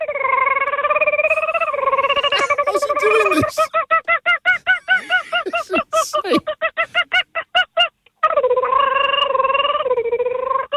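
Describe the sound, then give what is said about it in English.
A man's voice imitates a turkey call and a kookaburra call. Loud, wavering, warbling tones alternate with a long run of rapid, choppy, pulsing hoots, with no other talk. “First, the turkey. This sounds like a cartoon. And the other one's a kookaburra.”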